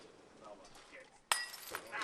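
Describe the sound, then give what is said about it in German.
Glass shatters into pieces at a building-yard construction celebration, a sudden sharp crash followed by a bright, scattering tinkle, heard against a murmur of people talking. “Das Glas zerschellt in 1000 Stück, diesen Bau bringt stets viel Glück.”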